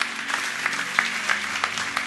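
Clapping from a church audience, fairly quiet and uneven, with individual sharp claps popping out over a low steady hum.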